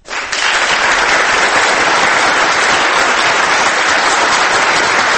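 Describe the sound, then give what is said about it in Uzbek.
Thunderous applause from an audience at a presidential oath-taking ceremony. A dense, loud, steady wash of clapping starts abruptly and holds without pause for about five seconds. “Keyin chapaklar, gulduroz qarsaklar.”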